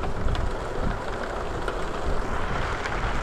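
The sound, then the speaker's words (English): Steady rain from a thunderstorm hisses without a break, with a low rumble of thunder running underneath. “The thunder is getting closer and closer to us.”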